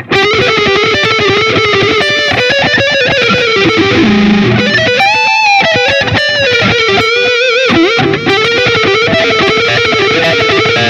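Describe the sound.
Electric guitar lick played through distortion on a modeled amplifier: a long run of fast, bending lead notes with a loud, gritty tone and no pauses.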